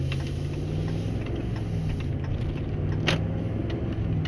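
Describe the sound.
Steady low car engine and road rumble from a vehicle driving along, holding an even loudness throughout with one brief brighter burst near the middle.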